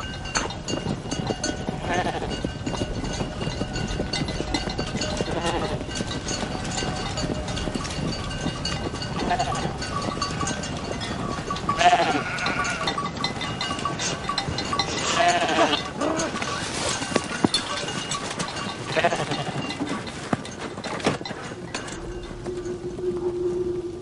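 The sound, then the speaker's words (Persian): A flock of sheep bleating outdoors near a tree and hill, with many overlapping bleats of varied pitch over a constant rustling background for about twenty-four seconds. “با گوسفندان چه کنیم؟”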